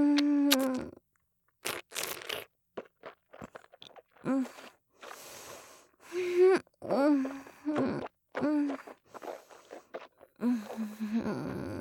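Crisp crunching and chewing of food in a series of short, irregular bites, interspersed with vocal sighs and murmurs between the crunches, alternating with brief silences.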